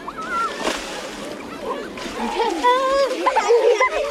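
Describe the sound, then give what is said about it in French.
Water splashing as a group of young schoolchildren wet each other on a shallow water-covered plaza in the city centre of Bordeaux, loud sloshing and splatter mixed with children's high voices and shouts. “Il y a quelqu'un qui mouille les autres.”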